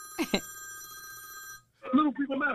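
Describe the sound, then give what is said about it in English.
A telephone rings on a radio call-in show, a steady electronic trill lasting over a second, with brief voice sounds over it and a person talking afterward. “The phone lines are jamming. The first one to try to get through is about to be crazy. We see you. Hey, we got our first caller.”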